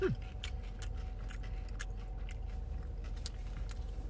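Someone bites into and chews crispy tater tots seasoned with lemon zest, eaten plain without dip. Faint, irregular crunches and clicks sound over a low steady background, with no talk.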